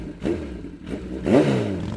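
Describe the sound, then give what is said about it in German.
A motorcycle engine revving in a few rumbling surges, its pitch sweeping upward with each throttle blip, the last rev the strongest. “bei vielen schlägt da sofort das Herz höher, ne, weil sie am liebsten sofort eine Runde drehen wollen auf dem Motorrad. Viele Anwohnerinnen und Anwohner in so einer Langscheid hingegen, die empfinden diesen Sound als extrem belastend.”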